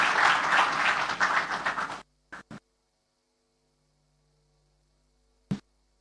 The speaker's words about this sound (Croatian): Pozdravimo ga aplauzom.